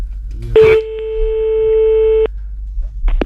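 A telephone line gives a steady tone after the caller hangs up. A short burst of noise comes first, then a single sustained beep that cuts off sharply, followed later by a brief rustle.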